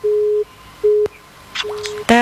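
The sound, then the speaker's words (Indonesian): A busy tone sounds after a phone call cuts off: a steady mid-pitched beep repeats in a few short on-off bursts, broken by a sharp click, and ends with a brief buzzy, harmonic blip. “Terputus, sayang sekali mungkin ini signal.”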